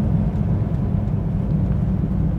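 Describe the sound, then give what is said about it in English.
A car driving through roundabouts: a loud, steady low rumble of engine and road noise that holds evenly throughout, with no voices. “guys, I am driving and going through roundabouts, and look, I'm trying to be as safe as possible”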